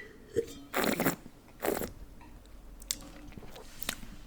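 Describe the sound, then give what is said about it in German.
Wine sipped and slurped during a tasting: two short, airy bursts of aerated slurping, then a few fainter mouth sounds. The whole passage is quiet. “Ich nehme noch mal einen Schluck gerade.”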